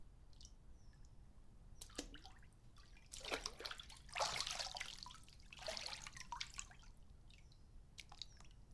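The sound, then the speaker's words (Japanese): Water poured over someone's back while washing, splashing and trickling in a few louder rushes above a steady low background, with drips in the quieter gaps. “お背中お流しします。”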